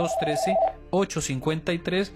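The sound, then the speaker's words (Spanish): A telephone rings with an incoming call on a Spanish-language call-in program, a brief steady ringing tone at the start followed by other tonal, voice-like sounds. “Tenemos una llamada, ¿con quien tengo el gusto?”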